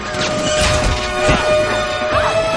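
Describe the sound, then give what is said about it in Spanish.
Crash of an electric pole giving way and falling in an action comedy film scene, a loud cluster of smashing impacts and clattering debris over a couple of seconds. “El poste eléctrico cede y caen, pero el cable se atasca y quedan colgando.”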